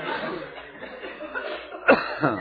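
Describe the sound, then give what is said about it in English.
A sharp cough bursts out near the end during a deliverance prayer session, after a low murmuring stretch, with a fainter second cough or breath just after. “Alright, take a deep breath. Cough it out in the name of Jesus.”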